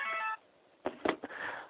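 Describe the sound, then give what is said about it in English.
A mobile phone rings with a brief, faint burst of bright electronic ringtone lasting under half a second, then goes quiet apart from a few soft knocks and clicks. “Sorry, my mobile phone's going.”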